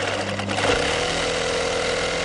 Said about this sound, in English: sits in her bedroom by the laced curtain windows and sews flags.